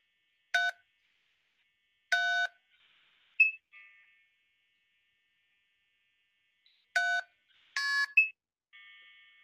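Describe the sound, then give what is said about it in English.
Telephone dial tones played from a phone app to dial out: several short electronic beeps separated by silence, some bright and harmonically rich, others thinner and fainter, with a longer soft tone at the end. “Hold on, are you using just regular DTMF to dial out with that?”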